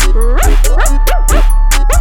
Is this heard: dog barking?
yes